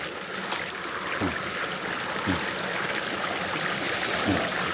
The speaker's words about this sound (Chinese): 山林间有着很多小溪和清泉。